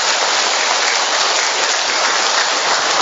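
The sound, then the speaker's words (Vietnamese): Audience applause, dense and steady, keeps an even loudness with no voices or pauses across three seconds. “Vỗ tay to nữa lên thưa các bạn.”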